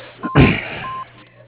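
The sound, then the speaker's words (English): An answering machine beep sounds before a voicemail message: a steady, pure electronic tone over a narrow telephone line, with a short burst of noise just before it. “please leave a message after the tone and state your name and your phone number twice, please, and the nature of your call, and we'll get back to you as soon as possible”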